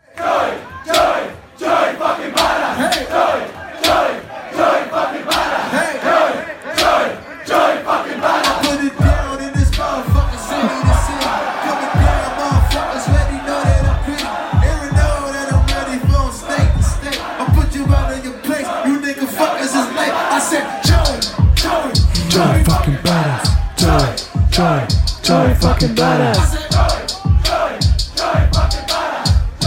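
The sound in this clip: A live hip-hop concert crowd chants the rapper's name in unison, loud and rhythmic, over a pounding beat with hi-hats. The chant repeats as a steady stream of punchy pulses for the whole passage.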